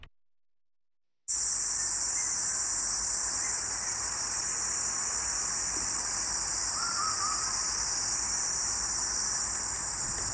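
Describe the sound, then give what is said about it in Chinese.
A huigu cicada calls with a continuous, high-pitched buzzing drone that starts abruptly after a brief silence and holds steady throughout. “这是什么声音呢？这是喙鸪的叫声。”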